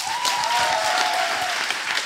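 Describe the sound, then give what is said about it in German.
Audience applause at an emotional evening event in a Dortmund jazz venue: dense, steady clapping from a large crowd that holds at an even level without letting up. “Bitte einen ganz großen Applaus für Oleg Senzow.”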